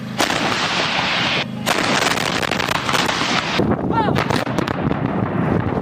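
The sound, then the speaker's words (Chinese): Artillery fire units fire a salvo: loud, dense roaring blasts fill the first few seconds with one brief break, then give way to scattered sharp cracks and rumble. “各火力单元在接收到目标信息后迅速完成射击准备。 5、4、3、2、1，放。”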